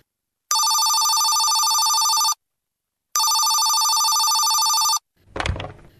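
A telephone rings in two long, steady electronic bursts separated by a short silence. A brief low thump follows the second ring.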